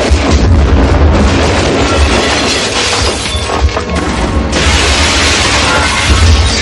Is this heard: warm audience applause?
no

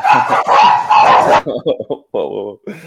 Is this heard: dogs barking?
yes

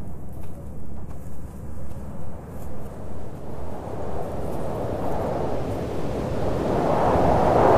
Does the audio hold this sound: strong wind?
yes

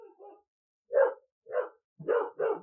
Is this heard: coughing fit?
no

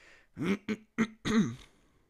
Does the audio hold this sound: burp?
yes

